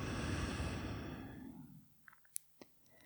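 A deep breath during a seated relaxation exercise: one long, airy, breathy exhale that gradually fades over about a second and a half, followed by near quiet with a few faint clicks.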